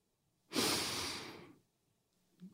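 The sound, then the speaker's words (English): A single deep breath: one loud, airy rush of breathing lasting about a second that slowly fades, followed by near silence and a brief faint breath sound at the end. “So, if you're ready, let's take a deep breath.”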